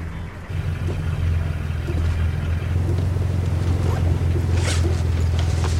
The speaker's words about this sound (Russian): Женщина тянется к сумке. Сзади подъезжает машина. За рулем сидит охранник, собравший диск. Женщина открывает сумку, показывает содержимое девушке полицейской.